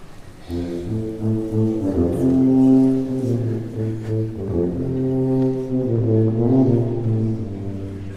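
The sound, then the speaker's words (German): An orchestral tuba plays a slow line of deep, sustained low notes. It is loud and alone, stepping between several pitches with smooth swells and no other instruments or voices. “Die Tuba da hinten. Was für ein tolles Instrument. Wie klingt denn die Tuba?”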